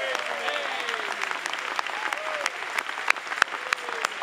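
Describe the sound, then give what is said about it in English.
Applause from a church audience, continuous dense clapping with a few sharper claps standing out toward the end, and voices calling out over it. “Give the Lord a big hand.”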